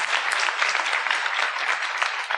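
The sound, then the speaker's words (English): Audience applause at a live science talk show with guests: dense, steady clapping from a crowd that stays loud and even throughout, with no voices over it. “And yeah, sure, let's give that a little applause there.”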